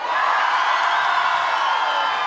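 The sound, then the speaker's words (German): A concert audience at the festival by the Steiner Tor in Krems applauding and cheering, a smooth, sustained roar of clapping and crowd noise that holds at the same level throughout. “Der Applaus ist das Brot des Musikers und wir werden heute nicht verhungern.”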